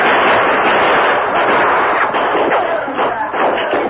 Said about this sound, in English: We gotta get past those men. Come on, boys. Open fire.